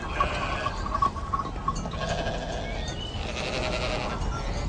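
A flock of sheep being driven to graze on farmland, bleating in overlapping, wavering calls over a constant rustling background that continues throughout.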